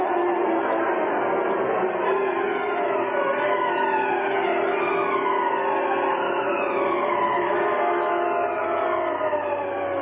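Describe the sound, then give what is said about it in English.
Police sirens wailing during a radio-drama car chase through city streets, with overlapping rising and falling wails that run loud and unbroken over a low engine rumble. “Sitting behind the wheel of the Black Beauty, Britt Reed, wearing the mask of the Green Hornet, led the police in a wild chase through the city streets.”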